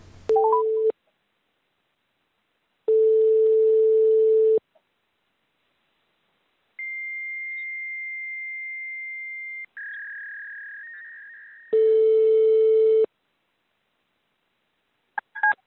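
Telephone line tones while calling detention centres: steady low ringing tones separated by silences, then a long higher tone followed by a slightly lower one that fades, and one more low tone before the line cuts off.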